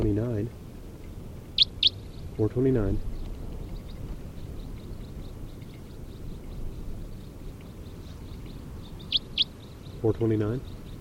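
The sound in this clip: Short, high bird chirps arrive in two quick pairs, several seconds apart, over a steady low background hiss.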